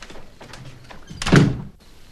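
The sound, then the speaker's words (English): Double doors close as someone leaves, landing as a single dull, heavy thunk after a quiet lead-in, then fading fast to near silence. “leaves by the double doors”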